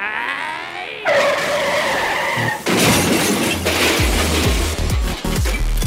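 Sound effect of a 1970s van driving and skidding: an engine note gives way to a long, loud tire screech, then a harsh crashing burst followed by several low thuds.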